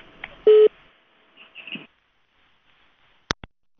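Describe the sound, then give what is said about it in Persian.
Telephone tones as a call is cut off: a short, loud, steady tone, some faint muffled sound on the line, then two sharp clicks near the end. “متاسفانه تماس آقای ترخیل قطع شد.”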